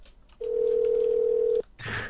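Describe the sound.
A telephone ringing tone heard while calling a motel: one long, steady, mid-pitched tone lasting about a second, cut off sharply and followed by a brief burst of noise.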